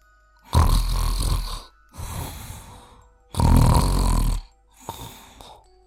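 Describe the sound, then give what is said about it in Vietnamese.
A prisoner in a jail cell snores loudly near midnight: two long, rasping, heavy snores, each followed by a shorter, softer one, in a slow even rhythm with quiet gaps between. “Đó chính là tiếng ngáy. Nhưng kẻ nào lại dám ngáy to như vậy ở trong này?”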